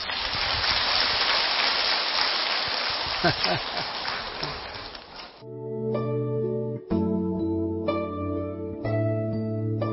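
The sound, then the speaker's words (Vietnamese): An audience applauds at the end of a Buddhist dharma lecture: dense, steady clapping for about five seconds, then a sustained chant with held tones. “Vỗ tay đi rồi nghỉ.”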